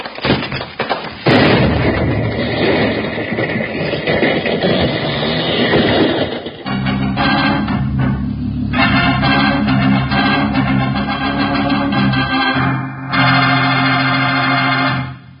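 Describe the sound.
A bomb goes off after a burning fuse: a sharp, loud blast near the start gives way to a long, heavy rumbling roar that carries on to the end before cutting off.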